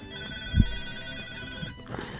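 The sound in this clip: A phone rings with an incoming call to a live radio show. The ringtone is a steady, faint electronic tone that holds an even pitch throughout, with no talk over it.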